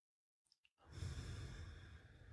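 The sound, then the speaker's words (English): A deep inhale during a slow guided breathing exercise: a few soft clicks, then a long, steady, breathy intake of air that carries through to the end, quiet and alone. “Another one. Inhaling deeply.”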